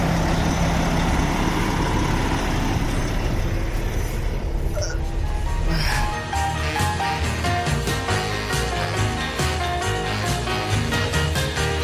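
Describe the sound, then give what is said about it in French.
A truck engine rumbles loudly and steadily throughout, its deep, heavy drone shifting in character about halfway through as the truck pulls away. “on saute dans le truck de Roy et on roule ensemble direction le pays des Mormons.”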